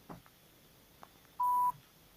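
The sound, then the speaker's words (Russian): A telephone number being dialed: a single steady touch-tone keypad beep sounds clearly after a few faint clicks, then quiet. “Так, звоним.”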